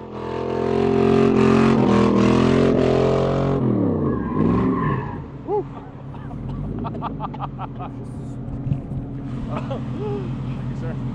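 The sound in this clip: A car engine rumbles low and steady as a car is driven slowly up to within inches of people's toes, with a strong tonal drone early on that eases off, and people talking over it.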